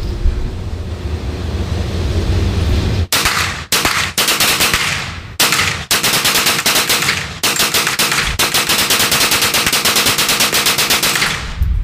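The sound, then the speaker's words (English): Rapid-fire gunshots from a firearm emptying a magazine, loud and dense, with many shots run together into several long bursts separated by brief gaps. “didn't care about the accuracy on that one. I just wanted to go rapid fire and enjoy it.”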